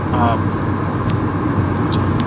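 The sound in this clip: Steady low rumble of a car being driven, heard from inside the cabin, with a dense, even road-and-engine drone throughout and a few faint, brief higher ticks.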